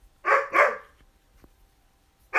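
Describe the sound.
A dog barks in another room: two quick, sharp barks, a quiet pause, then a third bark.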